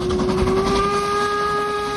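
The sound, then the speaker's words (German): A steam whistle sounds from a passing narrow-gauge railway train in the Harz mountains: one loud, steady, sustained tone with bright overtones that holds for the whole moment, alone, without talk. “Ihr wandert und die Harzer Schmalspurbahn fährt an euch vorbei.”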